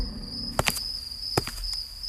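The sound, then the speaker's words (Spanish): A few faint footsteps at night, soft clicks over a steady, high cricket chirp. “Se escuchan unos pasos en la noche.”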